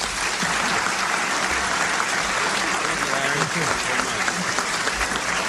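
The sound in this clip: Audience applause welcomes George Carlin at the National Press Club, a dense, steady wash of clapping that holds at an even level from start to finish.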